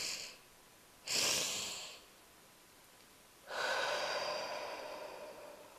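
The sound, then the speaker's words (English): A double-breath sigh, done as a deliberate breathing exercise: two inhales through the nose followed by a long, airy exhale through the mouth. A faint short breath precedes a stronger inhale, then the exhale swells and slowly fades. “it is two breaths in through your nose in succession without exhaling, and then an exhale through your mouth. So it would go like this.”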